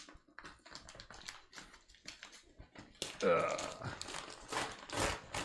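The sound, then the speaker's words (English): An Amazon package is opened by hand, with scattered taps, crinkles and tearing rustles, growing busier and louder partway through while a person talks. “All right, what will I open first? I have no idea what this is. It's an Amazon package.”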